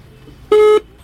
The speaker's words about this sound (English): Abdul makes another attempt to call the traffickers who are holding his daughter captive. For each dial tone, his breathing gets heavier.